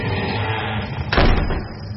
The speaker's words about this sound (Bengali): ঘরের দরজা যেমনটা খুলেছিল তেমনি এক ঠান্ডা বাতাসে বন্ধ হয়ে গেল আঁটো করে।